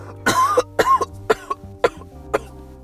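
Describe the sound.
Coughing after smoking weed: a loud, raspy fit of many coughs in quick, uneven bursts, strongest at first and then spacing out into a few sharper single coughs.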